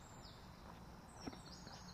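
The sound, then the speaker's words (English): Faint blackbird song in a very quiet early morning, a few thin whistled phrases drifting over a soft, steady background hiss. “So I've begun to walk now. In the background, I can hear blackbirds”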